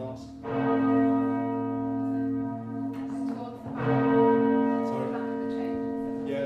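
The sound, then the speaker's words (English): Church bells from a ring of twelve in a cathedral in York, rung in changes: resonant bell strikes with long humming sustain, with a few fresh strikes layering over the lingering ring. “on the 12 bells we have here in the Peel at Yorkminster, you could possibly ring 479,001,600 different rows without ever repeating yourself.”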